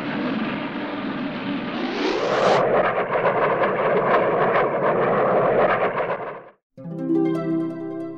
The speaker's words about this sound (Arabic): السائق قال للأطفال: أهلا وسهلا بكم في الطبق الطائر. ثم طار.